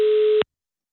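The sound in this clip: A single steady telephone line tone sounds while calling a gallery owner. It is one short, loud, even-pitched beep that stops abruptly, followed by silence.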